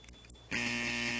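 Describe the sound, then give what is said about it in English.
An old-school buzzer cuts in after about half a second of quiet: a loud, harsh, steady buzz that holds on one pitch to the end. “Okay, so we originally had that old school buzzer.”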